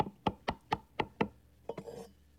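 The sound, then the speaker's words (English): Hammer tapping a clamped wooden shelf into place in a wooden cabinet frame: six evenly spaced, firm knocks, then a few softer, quicker taps. “And a few taps of the hammer helps it along.”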